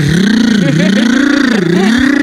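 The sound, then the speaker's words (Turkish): Boat running fast at 26 knots while surfing down waves, giving a loud, steady droning hum whose pitch wavers up and down with a rough, vibrating edge throughout. “Gör bu arada tekne 26 knot yapınca şöyle ses geliyor teknenin herhalde.”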